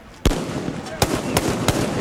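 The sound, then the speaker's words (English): Gunfire in a street battle in Tripoli, a barrage fired from inside a compound: five sharp, isolated cracks at irregular intervals over a steady background hiss. “Gunfire ripped across Tripoli. A barrage of bullets fired from inside the compound.”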